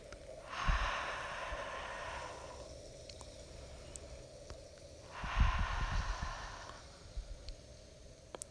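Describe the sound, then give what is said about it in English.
Two soft, whispery exhalations pushed through a slightly constricted throat, like fogging a mirror with the breath. Each is a steady airy hiss lasting about two seconds, separated by a pause, with no talking. “slightly constrict the back of your throat, making a soft whispering sound. You can imagine that you are softly trying to fog up a mirror with your breath.”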